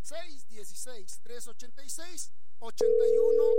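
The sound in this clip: A telephone dial tone sounds on a call that does not connect: after a short stretch of talk, a steady, unbroken mid-pitched tone starts and holds to the end.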